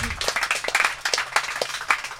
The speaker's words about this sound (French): Un tonnerre d'applaudissements également pour ma collègue animatrice Emma.